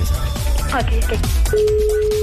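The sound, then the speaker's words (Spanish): A telephone call is dialled and a steady, mid-pitched line tone sets in partway through and holds to the end, following a stretch of loud talk. “Ok, estoy marcando en este momento, ¿ok?”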